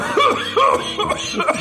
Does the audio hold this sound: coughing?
yes

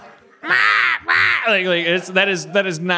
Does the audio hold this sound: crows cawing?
yes

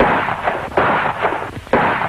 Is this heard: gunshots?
yes

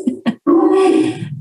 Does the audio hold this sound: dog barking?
yes

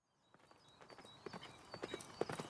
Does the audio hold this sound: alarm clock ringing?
no

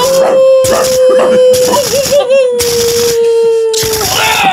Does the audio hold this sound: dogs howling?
yes

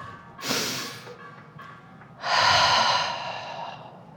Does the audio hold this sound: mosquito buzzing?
no

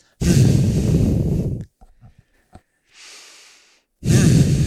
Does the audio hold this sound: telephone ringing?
no

